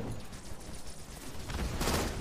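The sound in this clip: Gunfire from a battle rifle shooting triple-round bursts in a video game, a rapid, rough flurry of shots at moderate level that grows slightly denser toward the end.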